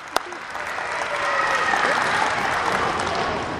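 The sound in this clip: A school audience claps, a dense, steady wash of applause from a crowd that begins with a single sharp clap and swells slightly, holding at an even level throughout.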